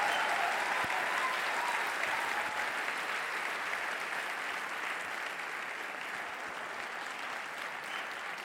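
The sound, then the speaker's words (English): Applause from a church audience welcoming a guest speaker from Nassau, Bahamas: fairly soft, continuous clapping that starts full and gradually thins over about eight seconds. “Give a big hand of welcome.”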